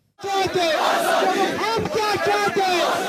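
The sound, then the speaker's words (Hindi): Large crowd of local people in Srinagar, Kashmir, loudly chanting pro-independence slogans in unison at a protest over a young man's shooting death. The voices surge in a steady, repeated rhythm. “आज़ादी के समर्थन में नारे श्रीनगर के नूरबाग इलाके में एक युवा मोहम्मद सलीम की गोली लगने से हुई मौत के बाद स्थानीय लोग दे रहे थे।”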